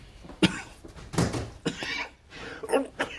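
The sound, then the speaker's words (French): A person with a persistent cough gives a few harsh, husky coughs in separate, irregularly spaced bursts. The coughs are fairly faint. “Vous toussez beaucoup, n'est-ce pas?”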